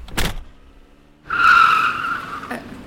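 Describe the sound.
Tires screech in a loud, sustained high-pitched squeal as a car is driven fast, lasting over a second after a short burst of noise at the start.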